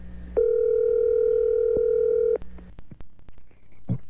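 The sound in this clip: Telephone dial tone as a call is being placed: a steady, loud, unbroken tone holds for about two seconds, then cuts off abruptly. A few faint clicks and a short blip follow in the quieter space after it.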